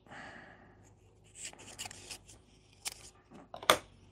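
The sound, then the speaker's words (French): Paper slips are folded and dropped into a hat with faint rustling and crinkling, a few short crisp bursts and a sharper crackle near the end. “On va plier, on va mettre dans le chapeau.”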